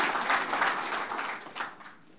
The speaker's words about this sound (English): You can go ahead and clap. Just make sure you're clapping for the Lord.